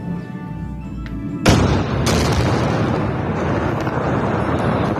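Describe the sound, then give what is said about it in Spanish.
Explosions from an Israeli airstrike on Beirut, Lebanon, during a pre-dawn bombardment: a low rumble, then a sudden loud blast and a second surge moments later, followed by a sustained heavy roar that does not fade. “Así suena uno de los muchos ataques israelíes que han caído esta madrugada sobre Beirut, la capital del Líbano.”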